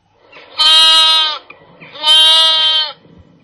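Lambs bleat twice, each call a loud, drawn-out, quavering cry of about a second, separated by a short pause.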